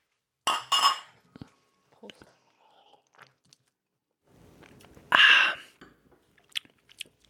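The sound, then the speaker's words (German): Beer glasses clink together in a toast, with one short, bright ringing knock. Faint handling noises and soft mouth sounds come before it. “Wenn man nochmal einen Schluck nimmt, wir stoßen mal an.”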